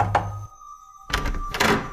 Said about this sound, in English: There, they find the house and knock.